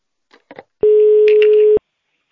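A telephone ringback tone while a call waits to connect: a single steady, mid-pitched beep lasting about a second, preceded by a couple of brief, faint sounds.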